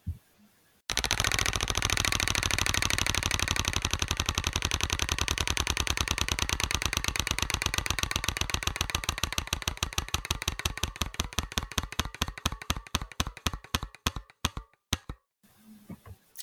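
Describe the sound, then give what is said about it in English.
A prize wheel spins with a long burst of rapid ratcheting clicks that gradually slow and spread apart until the wheel stops, loud and alone. “I'm spinning the wheel again.”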